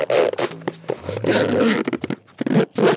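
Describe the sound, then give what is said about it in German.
A zipper being pulled open and shut, heard as a few short rasping strokes and longer scratchy runs in an uneven rhythm, fairly loud and alone with no talking. “Na, habt ihr dieses Geräusch erkannt? Eigentlich ganz einfach, das ist ein Reißverschluss.”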